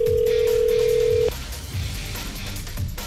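A single telephone ringback tone plays on an outgoing call, a steady mid-pitched purr lasting over a second before cutting off abruptly and leaving only a low, muffled background.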